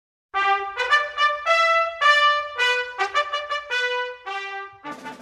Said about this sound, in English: What you just heard was the Chinese national anthem.